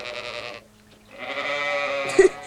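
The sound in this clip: Sheep bleating in two wavering calls, a short one followed by a longer, steadier one that swells into a brief louder burst near its end.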